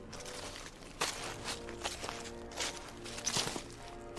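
Footsteps stomp on and on in a tense scene, a few irregular dull thuds and scuffs over a steady low tonal drone.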